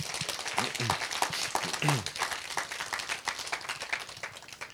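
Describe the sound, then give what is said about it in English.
An audience gives a round of applause: a quiet, dense patter of many hands clapping, with a voice speaking over it. “Should we just give Bruno a round of applause?”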